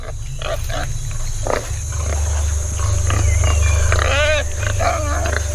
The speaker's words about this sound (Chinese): 是几只野猪幼崽，看起来似乎是不错的目标。他们跟随妈妈正在觅食。